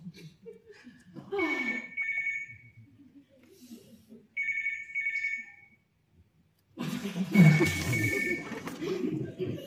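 A telephone rings in two distinct bursts of bright trilling tone separated by a short gap, followed by a louder, noisy stretch.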